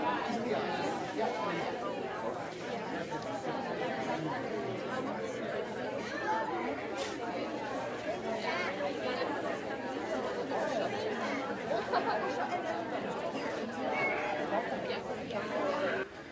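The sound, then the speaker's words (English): Loud, busy crowd chatter fills a mom market, a dense, steady babble of many overlapping voices that holds at an even level throughout, with no single voice standing out. “I'll show you actually what the mom markets sound like in audio. Let's bring in that sound of the mom market and let's take a listen together for a second.”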